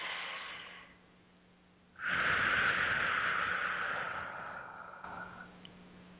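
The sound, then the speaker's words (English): Deep breathing in through the nose and out through the mouth in a guided relaxation, eyes closed: a shorter, softer breath, then a long, louder airy breath that slowly fades, with no talk. “Nice deep breath, eyes closed, in through the nose and out through the mouth.”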